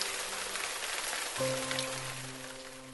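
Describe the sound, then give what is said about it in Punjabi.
Rain falling, as a sound effect: a steady, faint hiss of patter that runs unbroken throughout, with soft sustained low tones joining partway through. “ਇੱਕਦਮ ਬੱਦਲ ਗਰਜਿਆ ਅਤੇ ਬਾਰਿਸ਼ ਪੈਣੀ ਸ਼ੁਰੂ ਹੋ ਗਈ।”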